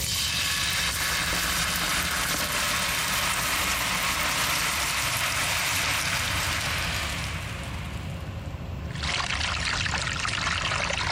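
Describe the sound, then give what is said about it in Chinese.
Water poured into bubbling caramelized sugar, slowly cooked over low heat to make a sugar color for glazing traditional braised chicken. A steady, loud hissing trickle runs nearly throughout, dips briefly near the end, then swells again. “现在这个大泡就起来了，等到它落下来之后马上就浇水，就是一两秒钟。”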